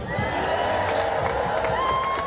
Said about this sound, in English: You can cheer now.